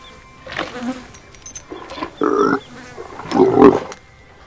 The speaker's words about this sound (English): As the animals eat, flies buzz about.